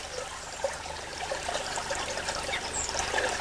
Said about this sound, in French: T'as vu, c'est bizarre, l'eau, elle bouge pas, et là, il y a du courant, là.